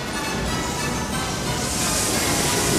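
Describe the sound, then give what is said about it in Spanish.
A torrent of water rushing in, a loud, dense, unbroken roar of churning water that swells slightly brighter toward the end. “La tromba de agua llega arrasando.”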